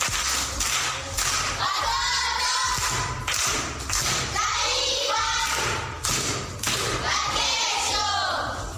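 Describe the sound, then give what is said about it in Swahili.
Primary school children at Bunda A clap for a pupil who answered a riddle correctly, a steady, rhythmic run of loud, regular claps, with children's voices mixed in. “Amepata amekosa? Amepata. Makofi kwangu.”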